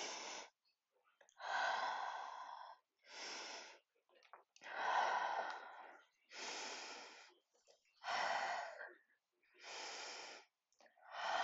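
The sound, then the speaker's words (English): Deep, slow breaths in and out during a guided breathing exercise, each a long, loud, rushing airflow separated by brief pauses in an even rhythm. “And as always, we're going to take our three deep breaths.”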